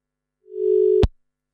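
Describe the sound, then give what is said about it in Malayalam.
A single steady mid-pitched telephone tone on a call that has been cut off, lasting about half a second and ending abruptly in a sharp click, followed by silence. “ചിത്രമഞ്ജരിയിലെ ആ call കട്ടായെന്ന് തോന്നുന്നു.”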